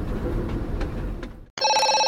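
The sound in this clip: A telephone rings with a steady, bright electronic multi-tone chime that starts abruptly after a brief silence and follows a stretch of dense, noisy sound.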